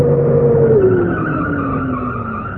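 Tires skid as a car pulls up and stops. A loud, continuous screech holds for the whole stretch and slides steadily lower in pitch as the car stops.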